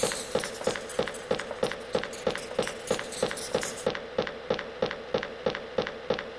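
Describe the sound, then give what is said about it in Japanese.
Running footsteps in a video-game corridor, a character fleeing down a passage: many quick, evenly spaced footfalls with dull low thuds and crisp clicks, in a steady fast rhythm throughout. “ようやく大男が歩いてくる方と逆の通路へ走り出した。”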